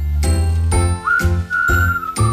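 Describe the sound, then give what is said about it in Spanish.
An incoming phone call ringtone plays loud and alone, a repeating electronic melody of bright chiming tones with a held high note running through its later phrases. “Hay una llamada. ¿Quién será?”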